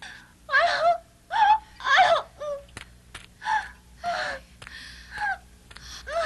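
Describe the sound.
A woman in childbirth cries out in pain with many gasping wails and moans, loud strained bursts broken by short breaths and quieter whimpering sounds.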